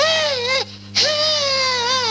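A child cries in long, wavering wails that are loud and tonal, breaking off briefly in the middle before resuming, with no other voices.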